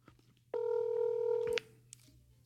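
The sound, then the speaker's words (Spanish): A telephone tone sounds as a radio studio places a call to Paraíso, Barahona: a single steady electronic beep lasting about a second, then a brief click, over a low background hum. “vamos ahora a comunicarnos con Paraíso Barahona, ya que me tiraron una llamada de allá”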